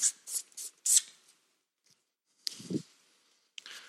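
Pen or pencil writing on paper: a few quick scratchy strokes in short bursts, a pause, then two more brief bursts of scraping, fairly faint and with no voices.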